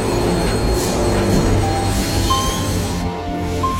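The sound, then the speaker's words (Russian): A metro train slowly pulls into a station platform with a steady, loud rolling rumble, joined by thin, high squealing tones from the wheels. “Медленно с включенными фарами подходит спасенный состав.”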